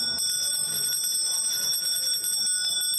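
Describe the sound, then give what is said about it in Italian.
A small bell rung in a parliament chamber rings steadily and brightly for the whole three seconds, a continuous metallic trill with no pauses and no voices over it. “Altra campanella, altra camera.”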